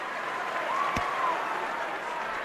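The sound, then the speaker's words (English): A crowd at a state semifinal high school basketball game between De Pere and Kettle Moraine cheers in a steady roar, with a brief whistle-like tone rising above it partway through. “Well, everybody's cheering, so he must have done something right.”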